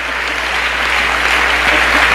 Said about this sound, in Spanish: Dale un aplauso a él esta mañana.